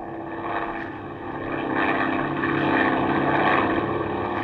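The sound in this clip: A light propeller aircraft engine drones steadily as the plane climbs, a continuous throbbing hum that swells slightly louder partway through and holds there, with no voices over it.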